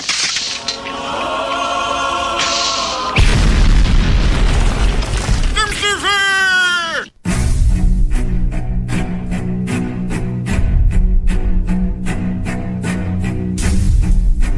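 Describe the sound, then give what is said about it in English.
A hand grenade explosion used as a film sound effect. A loud boom bursts out midway through a dense, noisy mix, followed by many sharp, rhythmic crackling hits. “bring up the holy hand grenade.”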